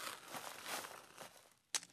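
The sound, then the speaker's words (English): A page being torn out of a book: faint crinkling and rustling of paper, then a single sharp, brief rip near the end. “As John goes to tear out a page, Garrett flinches.”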